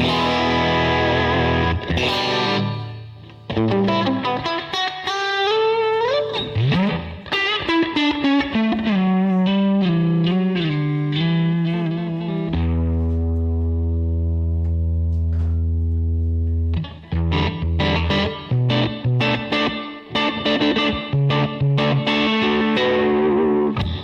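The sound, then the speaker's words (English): Electric guitar played through a Sonicake Levitate effects pedal set for delay and reverb, with many quick picked notes and sliding phrases, a long held chord in the middle, then more picked notes, loud throughout with no talking. “So we got the levitate. We were using the delay. It has reverb as well. There you go.”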